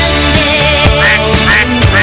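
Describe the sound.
Duck quacking in several short, harsh, repeated calls that cut through a loud, steady tonal background at a fairly even rhythm.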